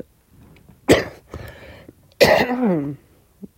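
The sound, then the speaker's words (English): Harsh coughing from a person, two sharp loud bursts about a second apart, the second longer and rougher, with faint throat noises between them and a tiny click near the end. “furball, anytime I talk on podcast, it makes me start coughing.”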